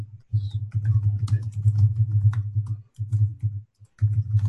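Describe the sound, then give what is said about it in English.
Typing on a computer keyboard: a rapid run of many light clicks over a steady low hum, broken by a couple of brief pauses. “I'll type it here.”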